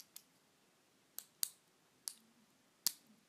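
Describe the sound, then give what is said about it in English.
A pen clicks five times, each click a crisp, quiet snap, spaced unevenly with short pauses between them. “Oh, you like that? Like that click, the click of the pen? I'm fidgeting because I'm freaking out.”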